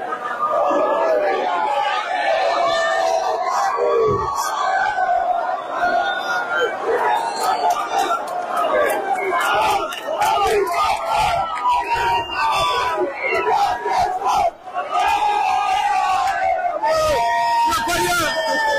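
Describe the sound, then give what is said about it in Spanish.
At midnight, as the border fence falls, a crowd crosses from the Spanish side into Gibraltar with loud cheering, screams and excited chatter. The mass of voices goes on steadily throughout. “Este es el sonido de los ciudadanos pasando del lado español al gibraltareño una vez que dieron las 12.”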